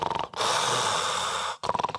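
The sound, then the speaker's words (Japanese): A person imitates heavy snoring of the kind heard in sleep apnea: one long, harsh, rasping breath of over a second, with short rattling pulses just before and after it. “私真似が上手なんですが、いびきをかいています。”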